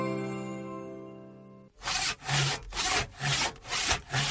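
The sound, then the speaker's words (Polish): A saw cuts the lower branches off a Christmas tree in several quick, rasping back-and-forth strokes that follow a sustained musical tone. “Zwariowałeś! Choinkę piłujesz! Te dolne gałęzie tylko.”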